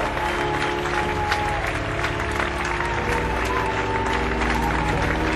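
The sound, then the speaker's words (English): Band members applauding the audience at the end of a concert: steady, dense clapping throughout, with a faint sustained tone beneath it. “And the band applauds for the audience. Beautiful show.”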